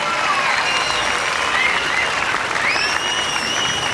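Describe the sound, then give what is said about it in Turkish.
Crowd applause filling a town square in Kırşehir, loud, dense and continuous, a sustained roar of many hands clapping at a steady level. “Hem size bu meydanı dolduran kıymetli Kırşehirlilere hem de davul zurna ekibimize maşallah kabilinden bir alkış rica ediyoruz.”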